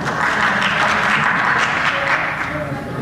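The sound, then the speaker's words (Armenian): Applause fills a parliament chamber as both majority and opposition members clap, a dense, steady wash of clapping that holds for about three seconds. “ձեր ելույթին ծափարն է և մեծամասնությունը և ընդդիմությունը։”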